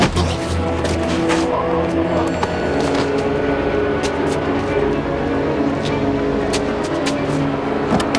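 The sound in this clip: A car drives away in a tense film scene, its engine droning steadily for several seconds beneath scattered clicks and rattles, the noise holding at a fairly even level from start to finish.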